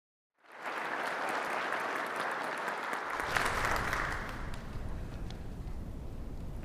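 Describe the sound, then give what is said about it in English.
A church audience applauds to welcome a guest during a morning service. Steady, sustained clapping begins after a moment of silence and continues to the end, thinning slightly partway through. “Can we put our hands together and welcome Isaac to our church this morning?”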